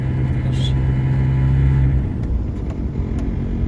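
A car drives along a road with a steady low engine rumble and road noise. A droning hum under it drops away after about two seconds.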